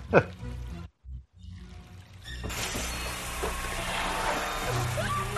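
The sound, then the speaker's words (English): Water sprays forcefully from a drain line, a loud, steady, broad hissing rush that starts abruptly after a brief quieter lull and continues unbroken to the end. “Wow, that's pretty intense of her drain line to be spraying water like that.”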